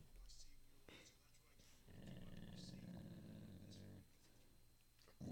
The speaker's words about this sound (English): My dogs are all growling.